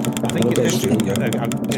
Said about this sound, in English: Let's spin the wheel. Oh, please be Australia.